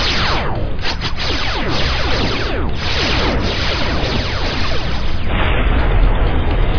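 A direct hit on a starship in a space battle sends out a sustained, roaring blast of crackling noise that stays loud and dense from start to finish without any pause.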